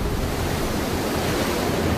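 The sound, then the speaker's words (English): Sea waves pound against a rocky shore in a thick, unbroken roar of surf and wind. The wash is loud and steady, with no distinct single crashes standing out. “The waves are crashing dangerously close to her. Carefully, she edges towards the pounding waves.”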